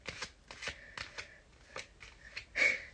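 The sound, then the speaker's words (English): Cards being shuffled and pulled, heard as many quick papery riffling bursts in an uneven rhythm, with the loudest, fullest rustle near the end. “And but let's pull three cards.”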